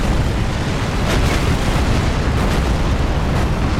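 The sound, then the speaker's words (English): Explosions and fire blasts in a video game make a loud, continuous roaring rumble, with a few sharper bursts standing out in the dense noise and no speech over it. “Oh, there's fire everywhere. I think we survived the initial mega blasts.”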